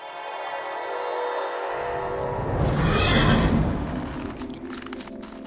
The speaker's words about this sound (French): On est dans le box de Tutu. Il y a une vieille jument qui va mettre bas.